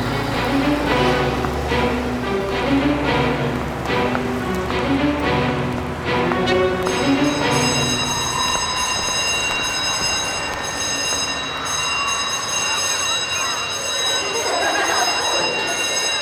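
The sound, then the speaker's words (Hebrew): A shuttle vehicle arrives with a loud, continuous rumbling roar, and a high, steady squeal joins partway through and continues to the end. “בוא נרוץ, ההסעה מגיעה.”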